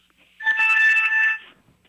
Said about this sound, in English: A few minutes later, he gets another call.